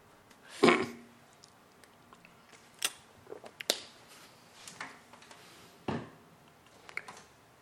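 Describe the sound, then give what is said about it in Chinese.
Water being drunk, with a few soft sips and swallows standing out as short bursts above a quiet background, the first one the loudest. “喝点水啊，不好意思。”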